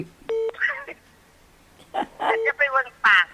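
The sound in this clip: Call-waiting beeps on a phone line, two short steady electronic tones spaced about two seconds apart, with people talking over the line around them.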